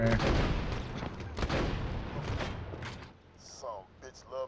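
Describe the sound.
A rocket launcher fires in a video game with a few heavy, booming blasts that fill the first three seconds, then the noise drops away and brief voices talk.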